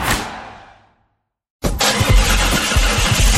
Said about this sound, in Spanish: Pisamos el acelerador y comienza el programa.